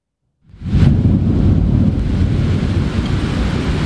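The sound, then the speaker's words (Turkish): A thunderstorm with heavy downpour strikes Trabzon in the evening: after a brief silence, a loud, dense, low rumbling roar of rain and storm noise surges in and holds steady without easing. “Önce şimşekler çaktı, sonra sağanak Trabzon'u vurdu.”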